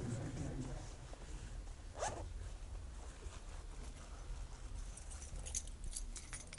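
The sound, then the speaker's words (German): A jacket's zipper and fabric are handled while keys are looked for, making a steady rustle with a short sharper burst partway through. “Ist das meine Jacke? Das ist nicht meine Jacke. Jetzt Schlüssel von M3 oder sowas.”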